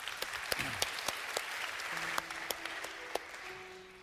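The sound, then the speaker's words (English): Congregation applause in a church welcoming families forward for a child dedication. Steady, moderate clapping runs throughout, with a few louder individual claps standing out. “And in fact, would you guys put your hands together and welcome these families?”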